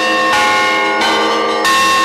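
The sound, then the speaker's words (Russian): Main cathedral bell, cast on the square beside the cathedral, tolls in three heavy fresh strikes, each swelling over a loud, sustained, overlapping ring, with no voices. “Главный колокол звонит, отливали здесь же, на площади у собора.”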